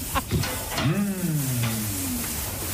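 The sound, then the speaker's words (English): Lamb bleating inside a lamb pen, a single drawn-out, fairly low voiced call with a smooth, wavering pitch, heard over a steady rough background noise. “Okay, take a listen to this. He's jumping into the lamb pen, the lamb cage.”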